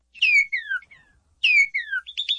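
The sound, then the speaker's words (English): Northern cardinal song: two bright, descending slurred whistles, each falling in pitch, separated by a short pause, ending with a quick run of rising chirps, clear and alone with no background noise. “The bright red northern cardinal sounds like this.”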